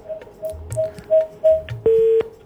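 A telephone is redialed after a dropped call to a radio call-in line. A string of short, evenly spaced beeping keypad tones is followed by a longer, louder steady tone.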